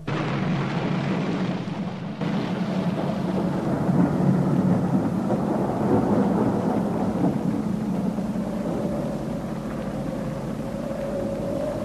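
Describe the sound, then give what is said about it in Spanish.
Drizzle falling on trees shaken by a cold wind on a stormy night: a continuous, even rush of rain and wind over a deep low rumble, steady throughout with no voices. “Así salió Alex, más confiado que nunca, en medio de la llovizna que caía sobre los árboles que se estremecían por el golpe helado del viento sobre sus ramas”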